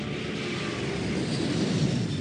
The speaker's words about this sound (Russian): Но ее слова заглушил рев взлетающего самолета.